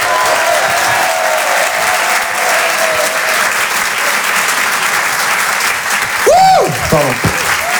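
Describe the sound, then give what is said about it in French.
Audience applauding a comedian as he comes on stage at a stand-up show, with steady, dense clapping that holds at a loud, even level throughout. “Je vous demande de l'encourager, faites un maximum de bruit, s'il vous plaît, pour Clément Kersual.”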